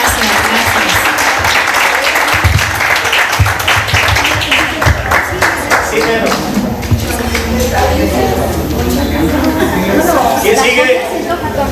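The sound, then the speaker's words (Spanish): An audience applauds at a live music show, with thick, continuous clapping that gradually thins, while voices and chatter carry on over and through it. “les pido un aplauso para cada uno de ustedes, por favor.”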